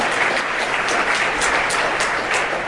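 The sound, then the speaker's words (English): Audience applause for two people, a dense, steady wash of many hands clapping that holds at an even level from start to finish, with no voices standing out. “A round of applause for Chris and Kaleem”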